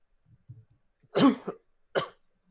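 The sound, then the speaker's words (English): Two harsh coughs from a person, the first louder and longer, the second shorter, following a few faint low throat sounds. “As you cough, you get a split-second migraine.”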